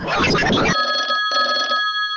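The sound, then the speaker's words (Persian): A telephone rings with an electronic, trilling tone in two bursts separated by a short gap, after a brief rough noisy burst at the start. “لطفا یه زنگ تلفن بده که بریم بازی کنیم.”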